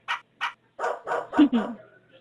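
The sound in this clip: A female dog barks, starting with two short, sharp barks and then a denser, whining burst of barking that tapers away.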